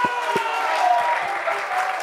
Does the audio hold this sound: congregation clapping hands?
yes